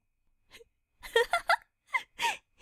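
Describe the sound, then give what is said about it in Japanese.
Desperate, heavy breathing and gasping for air: a string of short, breathy, strained gasps with a voiced, moaning edge, separated by brief silences. “必死で呼吸してる。そんなに苦しいんですか？”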